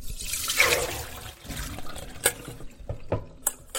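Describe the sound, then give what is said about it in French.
Water rushes out as soaked split peas for falafel are tipped into a colander to drain, a strong pouring burst at the start giving way to scattered splashes and light trickles. “On va les égoutter dans une passoire et ensuite les mettre dans un torchon pour prendre le maximum d'eau avant de les mixer.”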